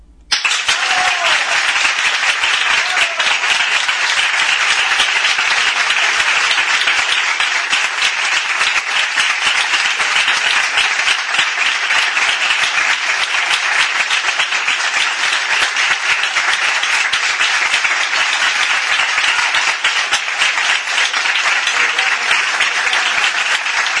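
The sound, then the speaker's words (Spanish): Sustained audience applause in response to a congratulation on a Spanish-language program, a dense, steady wash of many hands clapping that stays loud and even for about twenty-four seconds with no voices. “y, ¿por qué no?, un gran aplauso.”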